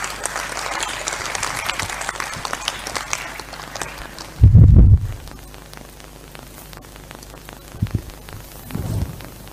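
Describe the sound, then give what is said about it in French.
Congregation applause at a church conference: dense, rain-like clapping fills the first half, then a loud low thump cuts in. After it the sound drops to a quieter background with a few soft bumps. “Est-ce qu'on peut acclamer pour Jésus?”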